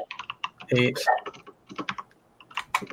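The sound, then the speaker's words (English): Typing on a computer keyboard, many quick, irregular key clicks and taps in uneven bursts, with a brief voice sound partway through. “You're typing it out for me.”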